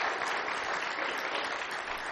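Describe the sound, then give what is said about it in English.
A church audience gives a hand clap of praise: a continuous, dense patter of many hands clapping at once, steady and moderately loud throughout, with no voices standing out. “Can we give God a hand clap of praise for her?”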